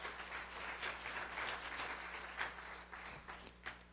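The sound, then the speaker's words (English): Congregation applauding with hand claps during a church service, a steady dense wash of clapping that holds for several seconds at moderate level, with a low background hum and no speech over it. “Come on, give Jesus a big hand clap today.”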